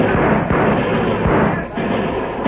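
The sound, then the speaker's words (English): Gunfire as homesteaders and cattlemen open fire on Texas gunmen in a western range battle: a loud, dense roar of overlapping shots with a few sharper cracks standing out, continuous throughout. “Tell the homesteaders and cattlemen to open fire. Right now. Now, boys! Open fire on those Texas killers!”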